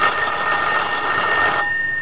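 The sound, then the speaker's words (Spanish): A telephone bell rings in one steady, loud, continuous electronic burst that cuts off shortly before the end, leaving a faint lingering tone. “Se sobresaltó cuando escuchó el timbre del teléfono.”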